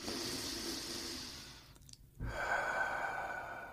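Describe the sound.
A deep, slow human breath, a long airy rush of air, then a brief gap, then another long breath, soft and steady with no words spoken.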